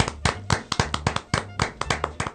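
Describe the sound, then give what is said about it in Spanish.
A few hands clapping in a small live studio audience, sharp separate claps in a loose, uneven rhythm rather than a full roar, fairly light and with no talk over them. “Se escucha leve el aplauso”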